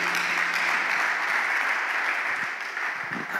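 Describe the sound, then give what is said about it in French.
Worshippers applauding for the glory of God, a strong dense burst of clapping that runs steady and then gradually thins and softens toward the end. “Est-ce qu'on peut acclamer très fort pour la gloire de Dieu?”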